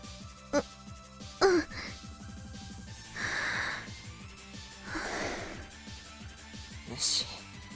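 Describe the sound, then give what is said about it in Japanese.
A deep breath is drawn in and then let out in two soft, airy swells over quiet background music, with a few brief other vocal sounds around it. “ほら、一回深呼吸してみろ。”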